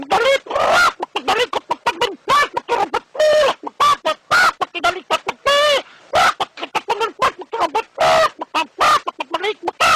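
Rooster calls come as many rapid, loud clucking and squawking bursts in an uneven, chattering rhythm that fills the whole stretch with only short gaps between calls.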